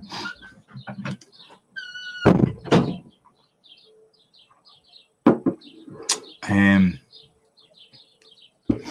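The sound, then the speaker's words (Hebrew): A door is being closed: a couple of loud wooden thuds and a short scraping creak. A brief voice comes first, and faint bird chirps drift in between the knocks. “אני ממתין לך שתסגור את הדלת, טוב?”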